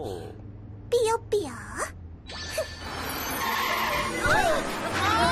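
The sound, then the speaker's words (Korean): A car skids to a stop with swooping, squealing tire screeches followed by a rising wash of rushing, gritty sliding noise, and voices mixed in. “잠깐 세워줘. 아무데서나 차 세우면 안 돼요.”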